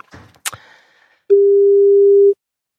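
A telephone line tone: a few faint clicks and handling noises come first, then one loud, steady mid-pitched tone sounds for about a second and cuts off abruptly.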